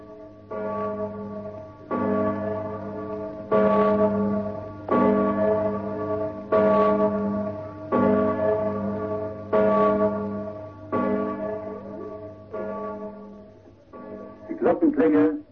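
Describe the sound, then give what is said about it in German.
A large bell on the Schlossberg in Graz tolls from an old disc recording: slow, evenly spaced strikes, each ringing out with a long humming decay over a steady low hum, then a brief different sound at the very end. “Und nun grüßt euch droben hoch im Norden der Glockenklang der Liesel vom Schlossberg zu Graz.”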